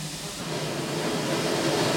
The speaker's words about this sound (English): Nothing like the sound and smell of a steam engine.